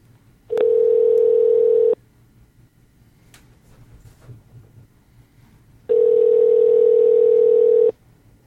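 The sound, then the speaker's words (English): Telephone tones on an outgoing call being placed: two long, steady, mid-pitched beeps, each lasting about one to two seconds, separated by several seconds of faint line hiss. “let's go ahead and try to get him on the line right now. I'm going to call.”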